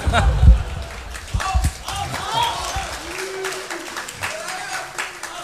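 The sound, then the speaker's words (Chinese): Audience applause at a live two-performer comedy stage show, a strong burst of clapping at the start that thins into a softer patter while a performer talks over it. “谢谢，谢谢大伙儿给我一个人的掌声。”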